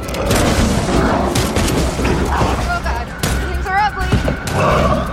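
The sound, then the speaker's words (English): Gunfire rings out at a horde of charging hellhounds in a snowy field, with many deep, booming shots blending into a dense, continuous barrage while voices are heard through it. “The horde of beasts bears down on them and they fire.”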